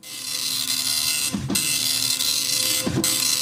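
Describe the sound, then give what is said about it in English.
A dot matrix printer printing: a steady, bright, buzzing rasp that runs throughout, broken twice by brief lower thumps. “And I knew exactly what it was. It was a dot matrix printer.”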